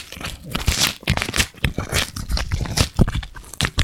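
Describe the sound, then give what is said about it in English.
Crinkling of a mailed package holding a note and two koozies as it is torn open. Many rapid, irregular crackling and rustling bursts run without a break, fairly loud and alone. “You hear the crinkle sound? I hear the crinkles.”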